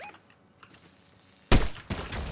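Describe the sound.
Gunfire in a video game: after a quiet stretch, a sudden loud, sharp burst of shots hits, followed shortly by a second burst, with no talk.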